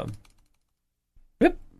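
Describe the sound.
A computer mouse clicks a few times while someone searches in software on a computer, the clicks sharp and brief beside a voice.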